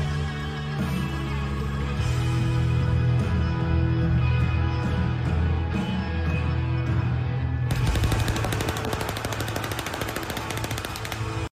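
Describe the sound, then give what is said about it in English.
Machine-gun-style gunfire from a film scene rattles out as one loud, dense, continuous barrage with no clear gaps, turning harsher and brighter toward the end. “And the evil shooting, very reminiscent of Inglourious Basterds.”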